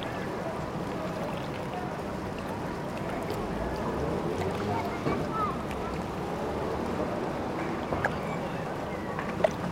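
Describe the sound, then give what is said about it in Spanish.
A fishing port hums with activity among fishing launches and sport boats: a continuous low wash of water and engine-like rumble, with scattered faint knocks and clatter throughout. “el constante ajetreo de la actividad en el puerto.”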